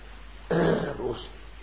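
A single short throat clearing, a rough, low burst of about half a second that stands alone against a quiet background.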